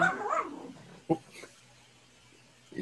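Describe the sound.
A prisoner barks like a dog as a side effect of his condition: a rough growling burst, then one sharp short bark, then near quiet. A human voice imitates the sound of a dog.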